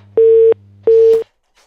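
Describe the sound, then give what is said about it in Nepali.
Telephone line cut off mid-call, giving two loud, steady mid-pitched beeps of equal length, then a crackle and silence. “कहिलेकाहीँ प्रविधिसँग जुत्दाखेरि बिचमै telephone कट्न पुग्छ नि होइन”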